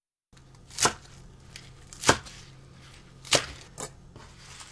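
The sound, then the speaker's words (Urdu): A knife chops spinach on a cutting board in four crisp, separate strikes. The chops come slowly and unevenly, with the last two closer together, over a quiet background. “پہلے پالک کاٹیں گے۔ پالک کی جڑیں کاٹ لیں اور پھر انہیں دھو کر 5 سینٹی میٹر لمبے ٹکڑوں میں کاٹ لیجئے۔”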